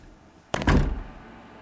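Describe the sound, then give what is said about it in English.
A door being shut gives a sharp thud with a second heavy knock right behind it, then quiet. “Close the door.”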